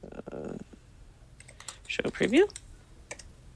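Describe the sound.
Typing on a computer keyboard while coding: quick, uneven clatters of keystrokes, mixed with a couple of brief voice sounds.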